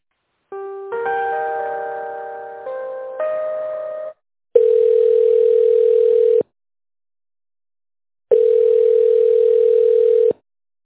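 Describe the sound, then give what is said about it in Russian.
Telephone line tones while a call is being transferred: a short electronic multi-note chime, then two long, steady, loud ringing tones of about two seconds each, separated by silence. “сейчас я вас соединю с бухгалтерией”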